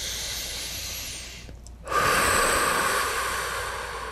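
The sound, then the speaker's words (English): A deep breath is taken during a calm guided meditation: after a brief hush, a long, breathy inhale swells in loudly, then tapers off gradually. “Take a deep breath.”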